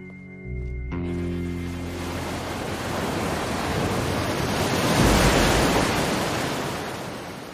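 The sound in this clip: Ocean waves by a hill produce a broad, steady roar of surf that swells toward the middle and eases off again, after a brief tonal sound at the very start.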